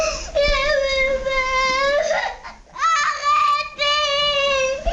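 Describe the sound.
A four-and-a-half-year-old boy bursts into tears, crying loudly in a few long, tremulous wails separated by short catches of breath.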